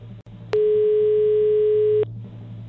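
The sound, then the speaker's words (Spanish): Telephone ringback tone while a call is being dialed: a single steady, mid-pitched tone sounds for about a second and a half, loud and alone, with quiet line noise before and after. “Estamos marcando. De momento da tono.”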